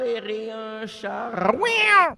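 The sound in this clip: A cat meows a few times in drawn-out, tonal calls whose pitch bends up and down, fairly loud and with no other sound.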